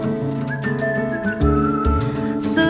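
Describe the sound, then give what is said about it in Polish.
A whistled tune carries over a full band in a pop song, a thin steady melodic line holding sustained notes above the busy accompaniment. “nucę gwiżdżę sobie”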